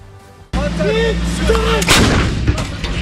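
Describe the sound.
Howitzer artillery fire booms during a live-fire military exercise at Polatlı, Ankara: a heavy blast crashes in after a quiet start, a second loud blast follows, and a dense rumble continues throughout.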